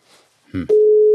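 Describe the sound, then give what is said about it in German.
Telephone dial tone, a steady, continuous mid-pitched hum that starts loud right after a brief rustle and click and holds unchanged to the end. “Ich höre ein Amt.”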